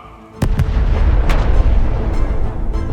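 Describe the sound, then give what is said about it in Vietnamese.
A thunderous explosion bursts in the sky after a brief quiet, with a few sharp cracks at the start and then a loud, deep, sustained rumble that fills the rest of the moment. “Một tiếng nổ long trời lở đất phát ra giữa thinh không.”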